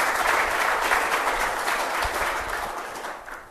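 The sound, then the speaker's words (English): A round of applause from an audience after a panel presentation, a full, dense wash of many hands clapping that holds steady, then gradually fades toward the end. “So I was hoping that first and foremost we could give a round of applause to all of our”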